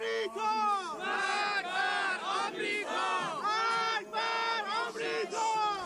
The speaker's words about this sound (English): What they are saying is death to the U.S., death to the Israel and other oppressor regimes in the region